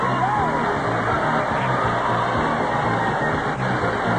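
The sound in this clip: A television game show's studio audience shouts, whoops and cheers in a loud, continuous crowd roar with no pause.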